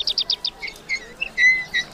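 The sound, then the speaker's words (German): Birds chirping on a sunny morning: a quick run of bright high twittering notes followed by scattered sharper tweets and short whistled calls, clear and alone without voices. “Die Vögel zwitschern in der Sonne.”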